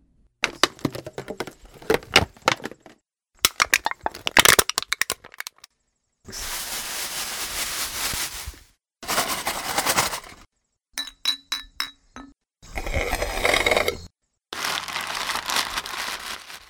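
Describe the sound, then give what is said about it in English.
Crinkling, clinking and crunching from common waterway trash: a plastic bottle, an aluminum can, a plastic bag, plastic utensils, glass bottles, a straw and a paper bag. The sounds come as several separate bursts of handling noise, some sharp clinks and some dense rustling, with no talk. “Those were the sounds of a plastic bottle, an aluminum can, a plastic bag, plastic utensils, glass bottles, a straw, and a paper bag”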